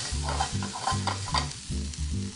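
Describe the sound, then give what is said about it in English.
Sizzling and stirring in a frying pan as cream is added ahead of the bacon for a creamy Parmesan dish. Rhythmic scraping strokes repeat many times over a constant hiss of frying, with no talk. “I wanna add some of our cream, because if we put the bacon in and then the cream, bacon's not gonna be crispy”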